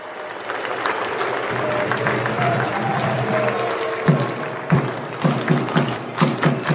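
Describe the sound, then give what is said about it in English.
Stadium crowd roaring as the England football team comes out to warm up: a dense, steady roar that breaks in the second half into a run of sharp rhythmic bursts, like chanting or clapping. “And that is the sound of the England team coming out to warm up.”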